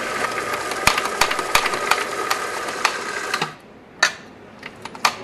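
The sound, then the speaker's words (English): Coffee beans being freshly ground in a coffee grinder: a steady whirring buzz threaded with rattling clicks runs for a few seconds, then cuts out, followed by a few sharp isolated clicks. “And now we need to grind our coffee fresh, because fresh coffee is always better.”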